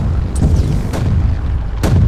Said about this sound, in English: Damn it. They're back to the grenades.